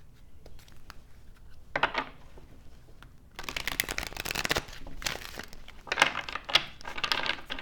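Playing cards shuffled and drawn during a card reading: several crisp, papery riffling bursts, sparse at first and then denser and louder through the second half, with no voices.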